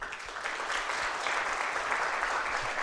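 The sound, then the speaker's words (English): Audience applause in a church: a dense, steady wash of many hands clapping at an even, fairly loud level throughout, with no clear gaps. “give them a big hand when I get them all announced”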